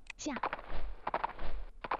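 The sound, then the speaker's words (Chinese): Footsteps of a Shenze mount in a video game, a quick, rhythmic run of hoof-like steps that comes and goes in short bursts beneath someone talking. “听到了这个是神则的走路的声音那么以后呢只要你听到你旁边啊有这种走路的这个声音啊那就说明哎有一个骑着神则的人来”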